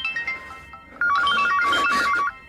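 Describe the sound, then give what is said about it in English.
Phone ringtone from an unknown caller: a loud electronic warble rapidly alternating between two pitches for over a second, preceded by a few fainter tones, with no talk over it. “Who is it? Unknown caller. Don't answer.”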